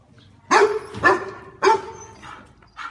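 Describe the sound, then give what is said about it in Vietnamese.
Fierce dog barking, three loud sharp barks in quick succession followed by a couple of fainter, shorter ones, heard alone with no voices. “Một con chó sủa dữ dội, sau đó bị mấy thôn dân dắt nó quát ngăn lại.”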